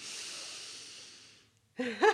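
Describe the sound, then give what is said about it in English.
A voice imitates a long, deep breath drawn in through the nose before speaking: a steady, airy hiss of about a second and a half, then a short pause and a brief voiced sound. “He takes the biggest deep breath through his nose and then speaks every single time.”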